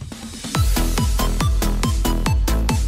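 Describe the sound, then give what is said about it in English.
Theme music from the video game Tetris 99, loud punchy electronic music driven by a fast, steady kick-drum pulse, with a quieter lead-in before the full beat enters. “It's specifically the Tetris 99 theme song, which sounds like this.”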